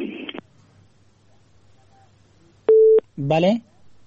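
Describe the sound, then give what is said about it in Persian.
A short, steady telephone tone sounds once on a radio call-in line after a caller's line has dropped, a single clean pitched beep set between bits of speech. “بله شنونده عزیز، تماس شنونده ما قطع شد”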